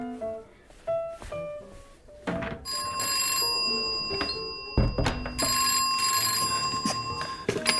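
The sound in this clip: A telephone bell rings out in two long, sustained bursts of bright, metallic ringing, preceded by a few knocks and clatters.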